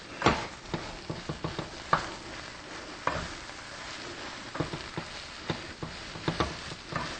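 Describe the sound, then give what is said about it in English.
Stirring turbinado sugar and freshly ground black pepper together: many light, irregular clicks and taps scattered over a steady soft hiss, at a low level and with no talking. “1 teaspoon of turbinado sugar. And we have 1/2 teaspoon of freshly ground black pepper. And I'm going to stir this around.”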